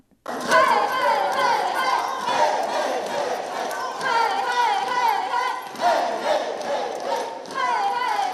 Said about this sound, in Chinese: 高新三区的佛光啦啦队也加紧脚步投入练习，希望用最有活力的演出为选手加油打气，展现佛光人的团队合作、欢喜服务精神。